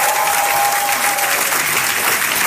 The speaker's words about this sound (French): Alors que tous ceux ce soir qui pensent qu'ils ont rendez-vous avec l'histoire applaudissent le roi des rois.